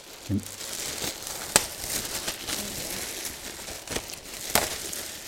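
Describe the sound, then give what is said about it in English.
Crinkling and tearing as a package is ripped open by hand, with a few sharp rips standing out over a soft, continuous rustle of crumpling material. No one speaks. “Here, I'll just rip it open.”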